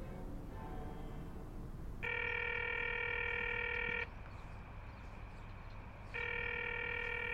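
Telephone ringing tone plays while a caller waits for an answer: a steady two-second harmonic burst, a pause of about two seconds, then a second burst begins, over a low background hum.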